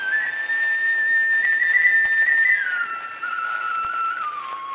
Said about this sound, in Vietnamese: sao nó nghe tiếng sáo rồi hình như nó mừng, nó tỉnh lại phải không bà? Thưa ông bà, đó là tiếng sáo của người lấy đò tên là Trương Chi.